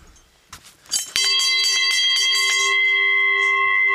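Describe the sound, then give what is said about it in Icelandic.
A cowbell rings with one sharp strike and a sustained metallic tone that lingers to the end, after some fainter clatter and rattling. “Það var með svona bjöllu það var með svona bjöllu, kúabjöllu”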